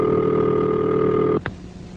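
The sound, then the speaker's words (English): Telephone ringing signal on an old rotary-phone line, a steady buzzing tone held for about a second and a half, then cut off abruptly with a click, leaving faint line hiss. “This is the ringing signal.”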